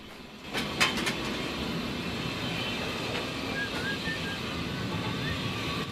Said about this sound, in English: The brass handles I'm adjusting are the injectors for the steam engine.